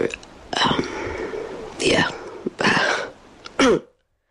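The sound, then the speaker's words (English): Forced coughing from an unwell woman in a recorded voice message: a few rough, hoarse bursts mixed with throat clearing, moderately loud. “Performed with the cough. You're really adding to it. Yeah. She's really forcing the cough out there.”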